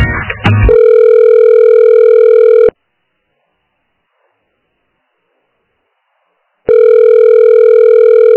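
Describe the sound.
Ringback tone on a phone line while a call is transferred: two long, steady buzzing tones separated by a few seconds of silence, with a short burst of noisy crackle right at the start.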